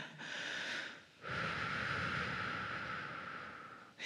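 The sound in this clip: A deep breath is taken during a guided group session: a short, soft inhale followed by a long, steady airy exhale, quiet and with no talk.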